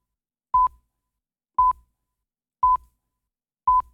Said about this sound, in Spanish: Lo que pasa es que en realidad el tono no lo tengo de el indicador de la hora. Vamos con el original.